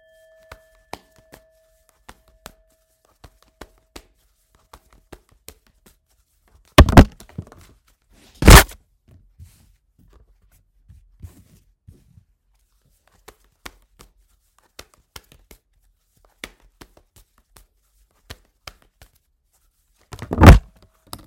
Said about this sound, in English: Lots of cards. Lots of cards went flying.